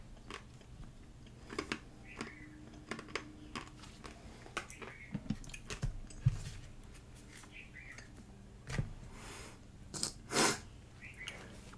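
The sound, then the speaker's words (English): Ice being chewed: many faint, crisp crunches and bites at an irregular pace, quiet and without talk, with a few slightly louder crunches near the end. “Oh, I'm chewing on ice.”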